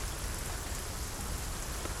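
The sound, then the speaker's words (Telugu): Rain falls in a steady, even hiss of dense drops with no clear breaks, fairly faint and without any talk. “మరునాడు షరా మామూలే ఇంకా వాన తెరిపివ్వలేదు”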